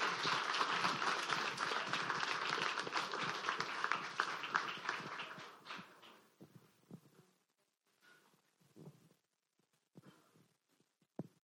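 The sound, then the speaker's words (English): Audience applause welcoming a guest speaker: a dense wash of clapping for about six seconds that fades away, leaving a few scattered claps. “So without further ado, please welcome our guest speaker.”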